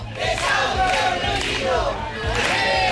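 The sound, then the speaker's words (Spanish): Protesters at a housing demonstration in A Coruña chant in unison, their massed voices surging in rhythmic shouted phrases with brief dips between them, loud and continuous. “Las protestas en demanda de soluciones en materia de vivienda se han sucedido en las últimas horas. Este es el sonido de la de A Coruña.”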